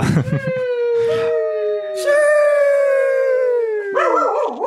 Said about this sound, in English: My dog does not like that.